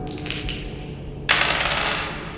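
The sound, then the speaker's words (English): Dice rolled and dropped onto a surface: a few light clicks are followed by one sudden, sharp clatter that rings bright and high and fades slowly. “The dice say yes.”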